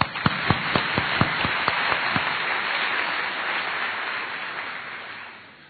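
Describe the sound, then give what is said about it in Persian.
Applause from the audience at a live Persian comedy performance. A handful of crisp, separate claps at the start quickly merge into a dense, steady round of clapping that fades out at the end. “برای خودتون دست بزنید”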